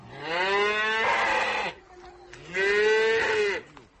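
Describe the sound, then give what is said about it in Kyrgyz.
Cattle mooing on a farm as calves are tied up before the cows are milked: two long, loud, drawn-out moos separated by a short pause. “Биз издеп барган убакта ал кайын энеси менен музоолорун байлап уй сааганга даярданып атыптыр.”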